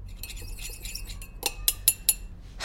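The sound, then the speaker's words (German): Glasses clink in a home kitchen, a few sharp, bright chinks bunched close together after a quieter stretch of soft clatter over a low background hum. “Sie sind in Sentas Küche.”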